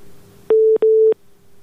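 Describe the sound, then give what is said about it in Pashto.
Disconnect tone after a telephone call is cut off: two steady, mid-pitched electronic beeps, each lasting about a quarter second with a short gap between them, over a faint continuous hum. “اړیکه یې پرې شله.”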